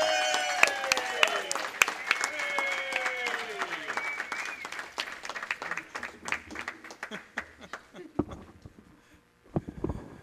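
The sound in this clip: Applause from an audience welcoming a speaker back to the stage, a dense run of many claps that holds steady for about eight seconds and then tapers off into a few scattered claps.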